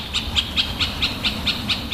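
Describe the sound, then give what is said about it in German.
Middle spotted woodpecker calling in a steady series of nine short, nasal notes, evenly spaced and fairly loud over a constant broad hiss. “und krakehlt wacker zurück. Der Mittelspecht ist ein kleiner Vogel mit großer Klappe.”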